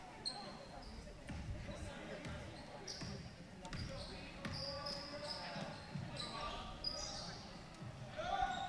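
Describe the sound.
A basketball bounces a few times as a player prepares for a free throw at the line during a game, each sharp thump sitting under a steady murmur of crowd noise.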